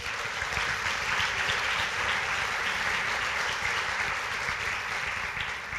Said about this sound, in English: would you go ahead and give him a hand?